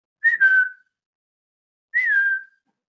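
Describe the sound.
Human whistling as a signal in a churchyard: two short, bright whistles separated by a pause. Each starts with a quick flutter and then slides slightly downward in pitch, clear and alone.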